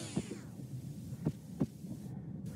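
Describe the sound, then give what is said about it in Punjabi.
A bus driver's heartbeat: a few soft, low thumps spaced irregularly over a faint steady hum, quiet and with no other sounds. “ਇਹ bus driver ਦੇ ਦਿਲ ਦੀ ਧੜਕਣ ਦੀ ਆਵਾਜ਼ ਹੈ।”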